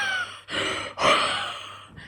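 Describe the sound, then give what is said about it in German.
A dreaming dog breathing strangely in its sleep rather than snoring, with a few deep, raspy, airy breaths in an uneven rhythm, faint and alone. “Ich weiß nicht, ob man es hört, aber der Hund schnarcht gerade. Der träumt total. Aber der schnarcht nicht, der atmet ganz komisch.”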